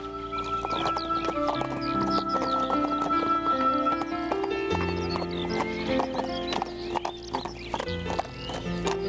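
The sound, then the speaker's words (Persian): Horses clip-clop with steady hoofbeats and let out whinnies as one is sent into a herd, with a tuneful music backing running throughout beneath the animal sounds. “اسبتان را داخل گله فرستادم.”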